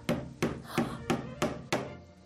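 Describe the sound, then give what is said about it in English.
A hammer drives a tack into an upholstered chair stuffed with horsehair: six sharp, evenly spaced taps, each ringing briefly before the next, with no talk over them. “Now take a tack in the other hand. Okay. Put it in, and now begin to hammer.”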